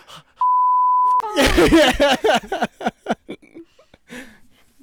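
A censor bleep covers a sneeze: one steady, loud, mid-pitched beep lasting under a second, followed by a run of vocal sounds.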